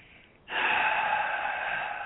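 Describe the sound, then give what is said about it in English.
A deep breath drawn in during a guided prayer: a loud, airy rush of inhaled air that starts suddenly after a quiet moment and holds steady for about a second and a half, with no talk over it. “So, we close our eyes. You take a deep breath.”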